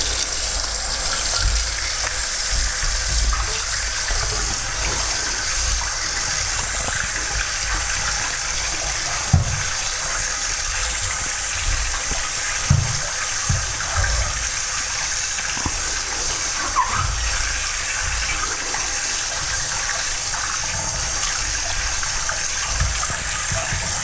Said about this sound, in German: Jetzt wird der Teller gleich abgespült. Ne? Und dann hat man kein dreckiges Geschirr.